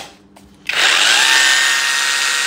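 A cordless rotary hammer drill switches on after a moment of quiet and runs loud and steady, holding a bright, high-pitched whine to the end.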